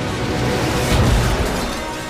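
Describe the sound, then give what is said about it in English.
A cartoon rocket blasts off with a steady, dense roaring rush that swells into a louder booming surge near the middle, then eases back to a constant roar, with no voices. “What's all the racket? It's not a racket, it's a rocket!”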